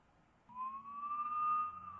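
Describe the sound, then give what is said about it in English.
A faint siren from two Border Patrol Wagoneers. A sustained wailing tone rises slightly and then holds over a low background rumble. “There's two Wagoneers. And they've got their sirens on and they're Border Patrol.”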